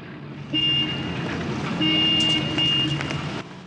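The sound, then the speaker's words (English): Military vehicles drive into a small North African town, giving a steady engine rumble with a thin, high tone that stops and returns, and a faint patter over it before the sound cuts off near the end. “The Allies' vehicles drive into a small North African town.”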